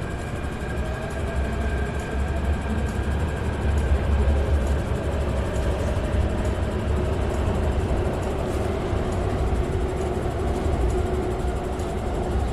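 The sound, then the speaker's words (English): A train departs a station with a steady, loud low rumble and a faint high whine running throughout; the level stays even, with no voices. “And the train is departing. And it is departing in the same direction in which it arrived.”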